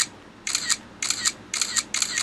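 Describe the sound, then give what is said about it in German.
Camera shutter clicks as photos are taken: four evenly spaced releases, each a crisp double click, bright and alone over a faint hiss. “So klang das früher oder später dann auch mal so, wenn wir Fotos gemacht haben. Und heute klingt das ja meistens so.”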